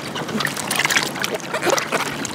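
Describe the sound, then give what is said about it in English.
Continuous water sloshing and splashing as farm workers wash squeaky bell peppers before boxing them for shipping, a busy, dense wash of wet noise without clear breaks. “The few remaining masked farm workers are washing squeaky bell peppers and boxing them to ship.”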